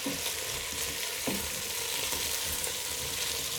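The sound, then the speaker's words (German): Potato goulash sizzles steadily and loudly in a pan on a ceramic hob after being stirred, a dense, even frying hiss that runs without a break. “So, jetzt wieder mal umgerührt. Man hört schön brutzeln. Dann braten wir das mal kurz an, wie es traditionell beim Erdäpfelgulasch auch gemacht wird.”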